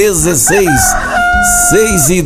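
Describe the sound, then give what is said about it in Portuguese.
A rooster crows at dawn on a farm, giving several loud calls in quick succession, each rising and then falling in pitch. “você que tá no sítio, na chácara, na fazenda, os passarinhos já tá acordando, ó.”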